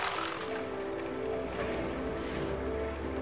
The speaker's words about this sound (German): Ich fahre auf dem Fahrrad und der Tag ist hell. Es geht bergab.